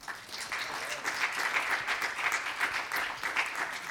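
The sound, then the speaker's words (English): A church audience claps for the sound room team during a Sunday service. The applause is fairly faint but steady and dense, with many hands throughout the short stretch and no voices over it. “those folks back there in the sound room know what they're doing, don't they? Why don't you give them a hand?”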